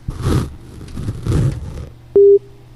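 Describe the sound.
A telephone line tone sounds as an incoming call connects: one short, loud, steady electronic beep with a click at its start, coming after a few bursts of muffled noise.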